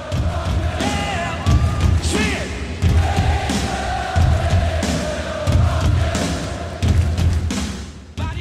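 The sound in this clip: A huge rock concert crowd stomping and clapping in time: heavy thuds and claps return in a steady repeating beat, with many voices shouting and singing along throughout.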